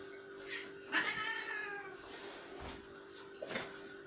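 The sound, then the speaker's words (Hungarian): A cat meows indoors in one drawn-out, wavering cry with a falling tail, surrounded by a few softer brief noises. No one talks. “Lehet van egy macska!”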